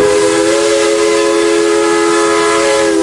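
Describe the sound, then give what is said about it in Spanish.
A locomotive's whistle gives one loud, steady, sustained harmonic blast that holds the same pitch for the whole clip, with no other sounds around it. “Y también hay otro video sobre la locomotora.”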